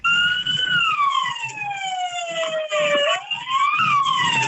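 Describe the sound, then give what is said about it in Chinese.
A fire engine's siren wails at a highway toll booth, loud and steady. Its tone sinks slowly over a few seconds, swoops back up, then eases down again. “一高速公路的收费口，消防车响着鸣笛，司机要求收费站工作人员抬杆让行”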